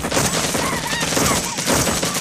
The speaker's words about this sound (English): The rest of the squad fire from a bridge.